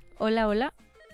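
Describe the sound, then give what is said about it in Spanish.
A telephone rings once after a call is dialed. The ring is a single steady electronic burst of about half a second, followed by a faint background. “Voy a marcar. A ver, vamos con la otra llamada.”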